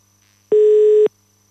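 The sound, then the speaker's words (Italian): Telephone ringing tone on a call placed to Milan: a single steady, mid-pitched electronic beep lasting about half a second, clear and alone against near silence. “Che squilli il telefono.”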